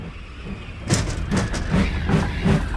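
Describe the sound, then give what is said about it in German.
A train rumbles past, with a loud, steady low roar and rhythmic clattering of wheels on rails. “Um Gottes Willen, Kurzi, der Zug!”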